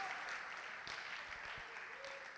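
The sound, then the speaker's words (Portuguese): A church audience applauds during a service, with soft but dense clapping that runs evenly throughout without a break. “Vamos aplaudir o Senhor e se coloque de pé no seu lugar.”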